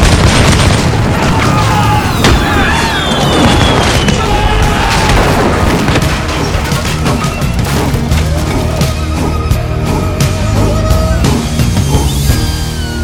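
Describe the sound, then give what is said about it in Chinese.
Dutch cannons bombarding ships at Fort Zeelandia in a radio drama battle: a dense, unbroken barrage of deep booms, crashing impacts and splintering that stays loud throughout. “荷兰军大炮连续狂轰，直到黎明时分，浓雾渐渐散去。”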